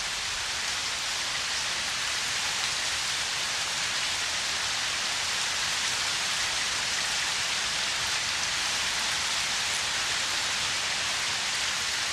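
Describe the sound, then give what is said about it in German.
Steady rainfall, a dense, even hiss of countless drops that stays at the same loud level for the whole stretch without pauses or voices. “Der Regen fällt nieder wie ein Albtraum.”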